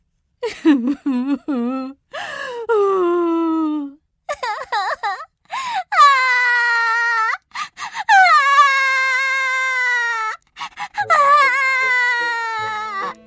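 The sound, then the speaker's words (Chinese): A voice acts out story characters crying loudly, including a father's wailing. A series of loud, drawn-out wails and sobbing cries waver in pitch, each burst separated by short pauses. “大家都哭了，哄也没有用，爸爸也哭了，哇哇的哭了起来。”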